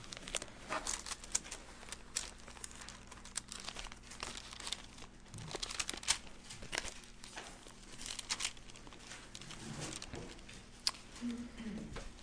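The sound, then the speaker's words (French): Pages of a Bible crinkle and rustle as the book is opened and the pages are turned, giving faint, irregular papery bursts with brief louder crackles spread across about twelve seconds. “Je vais ouvrir la parole du Seigneur dans l'évangile de Marc au chapitre 8.”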